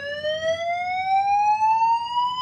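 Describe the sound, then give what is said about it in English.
An electronic alarm sounds as one loud, steady, harmonic tone that sweeps slowly upward in pitch across its whole length, with no break and no voices. “That's what's going off. That's what you need to have an alarm.”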